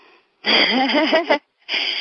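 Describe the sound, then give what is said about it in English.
A deep breath exhaled during a guided breathing exercise, heard as a long, breathy sigh with a wavering voiced tone lasting about a second, followed by another breathy sound. A faint steady high tone runs underneath. “Take a nice deep breath. And exhale, step into it.”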